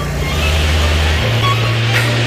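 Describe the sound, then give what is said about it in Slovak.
Large heavy vehicle engine pushed to full throttle with its lights switched off, a loud, steady low-pitched roar whose deep note steps up slightly midway. “Takže zhasnúť všetky svetlá. Tak. A plyn na maximum.”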